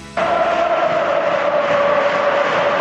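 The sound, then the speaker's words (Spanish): A football crowd at Mestalla stadium during a Valencia match bursts suddenly into a loud, sustained roar of cheering that holds steady after the abrupt start. “Vuelve a animarse el público en Mestalla”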